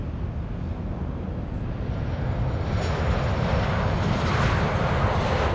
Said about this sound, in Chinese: 受令紧急轰炸黄河濒临任务的3架轰炸机，各挂8枚航爆弹，从位于关中平原的某机场依次升空。